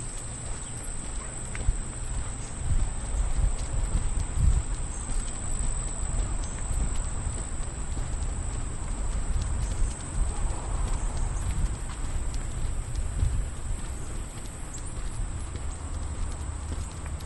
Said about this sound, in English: the cane tip taps this plastic because it's kind of hollow even. And you can even hear it just walking on it with your feet.